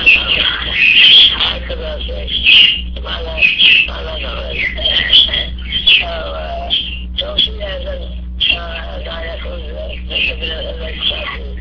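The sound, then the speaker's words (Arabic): Loud sparrow chirping: many sharp, high, rapid chirps that come in bursts throughout, over a steady low electrical hum, with faint voices in the background. “صوت العصافير شيخ، العصافير صوت مرتفع جدا.”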